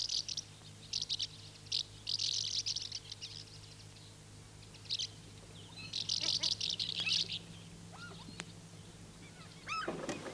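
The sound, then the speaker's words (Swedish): Birds chirp around a carpenter's yard as summer nears, giving bright, high twittering bursts. Several clusters of chirps come and go over a low, steady hum, fairly faint overall. “Fåglarna har flyttat in i snickargården. Snart är sommar tror jag.”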